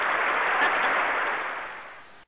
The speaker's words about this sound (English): Yes, we could. We can applaud ourselves. Woo us.